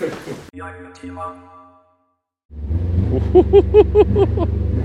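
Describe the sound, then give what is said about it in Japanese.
Engine of an S800 car driving on a snowy road, a low steady drone with a few rising and falling rev surges, heard after a short silent gap. “雪道を S800 で走っている。”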